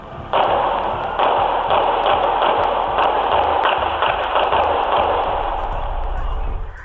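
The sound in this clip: Gunshots ring out on the street outside a bar at closing time as a party spills outdoors: many rapid, sharp cracks over a dense, steady wash of loud noise.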